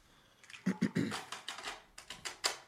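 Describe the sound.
Plastic tape being handled, plastic knocking and rubbing on plastic in a quick series of dry clicks and crinkly rattles, fairly faint, with sharper snaps near the start.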